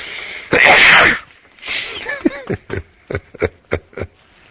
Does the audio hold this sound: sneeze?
yes